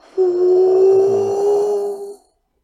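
A futuristic motorcycle engine gives off a steady, low humming drone likened to a puppy snoring. The hum holds one unwavering pitch with buzzy overtones for about two seconds, then cuts off.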